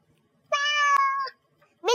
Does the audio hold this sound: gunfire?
no